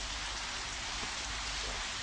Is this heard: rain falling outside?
yes